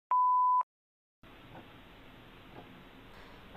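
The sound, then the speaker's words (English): An answering machine gives a single steady, mid-pitched beep lasting about half a second. A short silence follows, then a faint, even line hiss carries on to the end. “I'm sorry. Your call cannot be taken at the moment. Please leave a message after the tone.”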